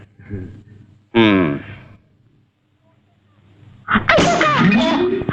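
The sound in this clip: A single loud, voiced sneeze bursts out after some faint breathy sounds, followed by a quiet pause before a person starts talking.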